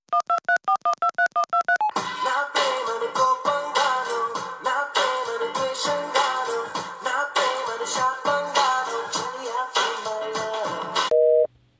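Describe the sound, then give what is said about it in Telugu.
Telephone tones as a call is placed on a Vodafone mobile line: a rapid run of short, even beeps opens, then a long, dense stretch of layered tones, ending on a brief steady tone. “వాడికి phone కలిపి నేను మాట్లాడతా.”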